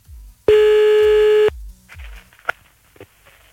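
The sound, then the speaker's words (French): A telephone tone sounds as a call is placed late at night, one steady, loud tone lasting about a second. It is followed by faint clicks and soft low bumps. “Bon, attends, on rappelle encore un coup, là. Un petit dernier.”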